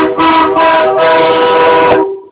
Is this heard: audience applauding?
no